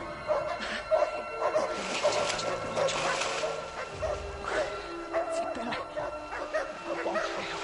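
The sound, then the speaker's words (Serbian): Dogs barking at a pursuit: many overlapping barks, yips and whimpers come in an uneven, restless stream, moderately loud throughout. “Pse su doveli.”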